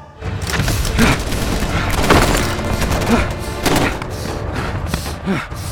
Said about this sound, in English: We're taking heavy fire on the East Ridge. We need air support. We need air support now.